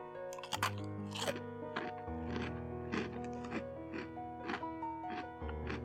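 Crisp crunching and chewing of a Calbee snack, many short crackly bites repeating irregularly over steady background music.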